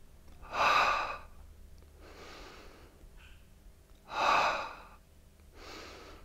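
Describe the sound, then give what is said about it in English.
Deep breathing into the top of the chest during a stretching exercise: two loud, noisy breaths, each followed by a quieter, longer breath, with no talking. “I'm going to breathe into the top of my chest and I'll try and make those bones move.”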